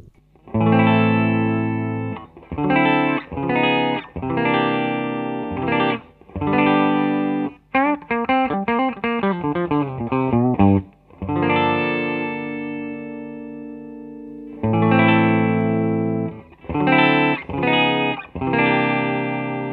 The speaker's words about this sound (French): Toujours le même plan sur les micros chevalets, micros aigus. 335 d'abord, Les Paul ensuite.